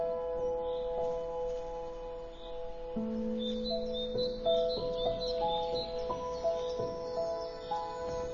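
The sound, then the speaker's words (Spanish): Birds calling high in dense forest treetops, a scatter of short, bright chirps and tweets over sustained steady tones, the calls growing busier in the second half. “Excepcionales aves en las alturas, entre las densas copas de los árboles.”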